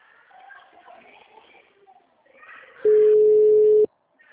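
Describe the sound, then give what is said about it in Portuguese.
After the other person hangs up, a single long, steady telephone tone sounds for about a second. Quiet talk comes before it. “Ó, tá vendo? Foi ela mesmo que desligou. Não tá nem mais atendendo.”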